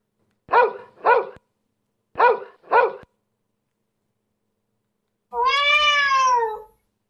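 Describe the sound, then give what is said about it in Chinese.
A puppy gives four short yips in two pairs, then a kitten lets out one long, drawn-out meow that is much longer than the yips. “第一个是小狗的声音，第二个是小猫的声音”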